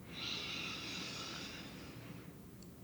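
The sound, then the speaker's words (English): Long deep inhale through the nose in a guided breathing exercise, a smooth airy hiss that builds quickly and then slowly fades over about two seconds, heard alone without any talk. “Deep breath in.”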